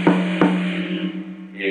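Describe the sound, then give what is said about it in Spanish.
First tom on a drum kit struck twice in quick succession, a round, pitched boom that keeps ringing with a steady, sustained tone after the hits. “Por acá tenemos el tom 1, que es este tambor de acá.”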